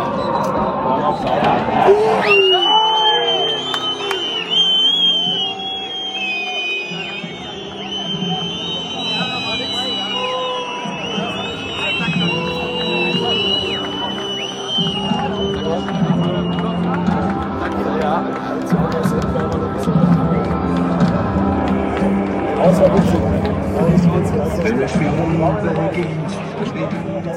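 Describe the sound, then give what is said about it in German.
Football stadium crowd around the final whistle, heard from the standing block in the west end, with FSV Zwickau fans: a continuous, loud roar of massed voices, cheering and shouting, that holds steady throughout. “Und ich habe mir gedacht, ich nehme mal die Momente rund um den Abpfiff auf. Das ist das Ergebnis.”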